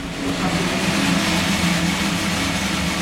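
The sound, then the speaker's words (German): Large stainless steel coffee roasting machine roasting a batch of beans in a former garage in an industrial area, giving a continuous, even, whooshing hum with a low rumble and no breaks. “In einer großen ehemaligen Garage im Gewerbegebiet röstet gerade eine Ladung Kaffee in der großen Edelstahlmaschine.”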